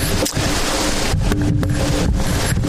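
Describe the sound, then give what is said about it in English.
Wind blows outdoors, a loud, continuous rush that buffets the microphone, with a few brief dips and gusts throughout. “We thank you for the wind, even though it's a bit inconvenient for us at the moment.”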